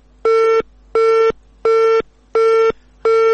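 Telephone busy tone after a dropped call: five identical loud beeps at a steady, even rhythm, each lasting about a third of a second with equal silent gaps between them.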